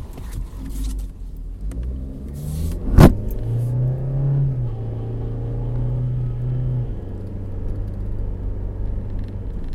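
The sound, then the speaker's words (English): A car drives along the road, heard from inside as a steady low engine and road rumble that holds through the whole stretch, broken once early on by a single sharp, brief knock. “Alright, so sorry, I'm trying to drive and people are being weird on the road.”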